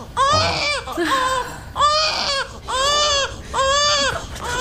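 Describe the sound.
A hungry infant who is not getting milk is crying: loud, high, wailing cries come in repeated bursts with short breaths between them, alone and without talk.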